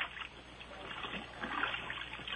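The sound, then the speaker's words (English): Water sloshes and trickles in a bathtub, a faint, muffled and continuous splashing with small irregular bursts. “And I noticed the flailing in the water.”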